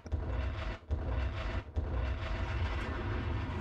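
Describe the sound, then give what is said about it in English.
Bomb explosions from a sound effect form a heavy, continuous, rumbling roar that is loud and dense throughout, broken only by two brief dips. “Yep, I have to let the bombs settle.”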